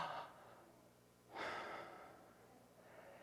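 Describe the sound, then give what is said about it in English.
A deep breath, soft airy rushes of air drawn in and let out, a few faint breathing sounds with no talk. “In fact, everybody do that with me right now, just a deep breath.”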